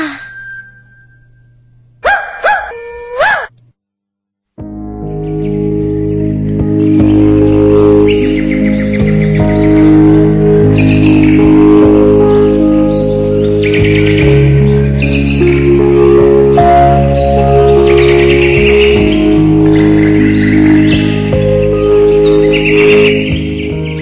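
Birds chirping and tweeting in a lively, continuous chorus over a sustained tonal backdrop, after a few brief separate sounds at the start; loud and without talk.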